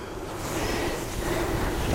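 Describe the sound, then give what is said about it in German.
A blanket is pulled off a bed during home care: a soft, steady swish and rustle of fabric holds for about two seconds at an even level. “So, machen wir mal die Decke weg.”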